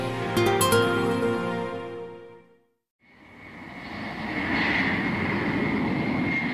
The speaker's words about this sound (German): Pilot Jack Weddell gibt Schub und die Boeing hebt ab zum ersten Mal.